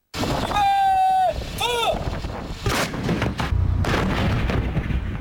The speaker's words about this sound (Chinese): 官兵们按战斗队形散开，迅速完成前沿侦察、弹药装填和诸源计算，并展开首轮火力打击。